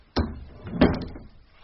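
A door opens with a sharp click followed, under a second later, by a heavier thud and a brief rattle that quickly dies away.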